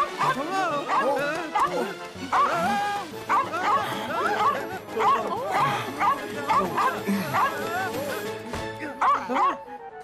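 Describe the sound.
A lost dog barks, yips and whimpers in many short, high-pitched bursts with rising and falling cries, while voices talk over it.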